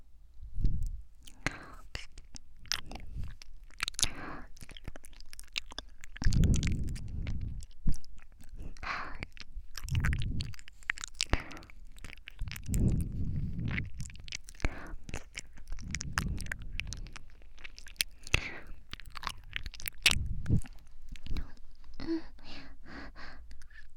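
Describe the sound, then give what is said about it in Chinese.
Close-up ASMR mouth sounds of someone pretending to eat an ear: many wet clicks, smacks and soft nibbling noises over low breathy thumps and whispery breath, continuing irregularly throughout. “主管的耳朵，当然好吃了。”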